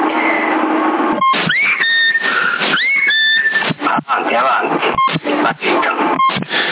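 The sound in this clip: CB radio roger beeps from a radio exchange in Sassari: several short electronic beeps, including quick rising chirps, closing bursts of loud, band-limited radio voice with steady static.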